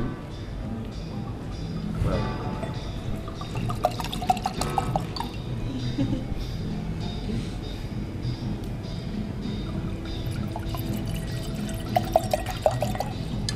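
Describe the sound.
Wine is poured from a bottle into two glasses, a steady, low trickling stream that runs on evenly with faint splashes.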